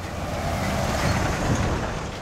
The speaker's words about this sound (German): Immer wieder donnern Lastwagen zum Eingang einer Schlackefabrik und wirbeln Staubwolken auf.